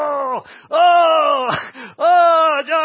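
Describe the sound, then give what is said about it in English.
Three long, drawn-out human groans, uttered as prayer, each loud and sustained with a moaning, wailing tone that sags downward in pitch at its end, separated by brief pauses. “the most natural state of prayer should be groaning. It should be groaning.”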